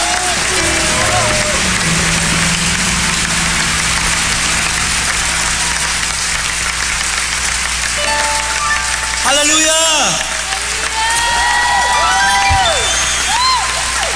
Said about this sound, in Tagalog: Amen? Sige nga, palakpakan natin na malakas ang Panginoon.